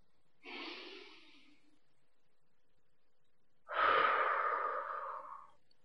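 Two deep breaths taken during a guided relaxation exercise, each a soft, airy rush of air heard alone. The first is shorter and quieter; the second, a few seconds later, is louder and longer.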